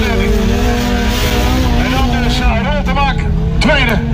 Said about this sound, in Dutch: We zitten op de autocross in Sørøst-Trøndelag.